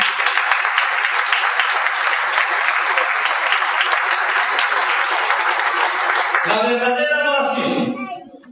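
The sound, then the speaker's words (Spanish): A church audience applauding strongly in praise of the Lord during a service, a dense, loud, sustained wash of clapping that gives way near the end as a voice rises over it and the sound fades. “¿Cuántos adoran a Cristo? Un fuerte aplauso al Señor.”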